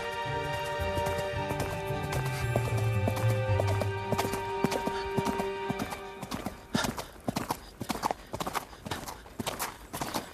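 Horse hooves clip-clop as a rider travels a deserted, winding path under a hot midday sun. The hoofbeats are loud, irregular and quick, and they stand out most sharply in the second half against a steady background.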